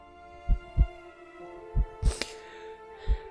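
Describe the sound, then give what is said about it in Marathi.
A human heartbeat heard while one person holds another close: steady, evenly spaced low thuds in paired beats, with a brief burst of hiss partway through. “त्यांचं मन भरेपर्यंत रमाकांत जोशी ऐकत होते अनुपमच्या हृदयाचे एकसारख्या लईत पडणारे ठोके ठक ठक ठक”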